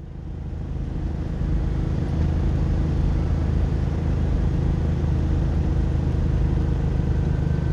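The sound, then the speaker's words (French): A car labours slowly uphill, losing speed, its engine giving a continuous low droning rumble that swells slightly early on and then stays steady and loud. “Ça monte. Hein. Elle va pas vite, cette voiture.”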